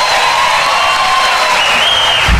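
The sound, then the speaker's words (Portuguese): Crowd applause at a recorded sertanejo concert: a dense, steady wash of clapping from many hands that stays loud and even throughout, with no breaks. “Mais aplausos.”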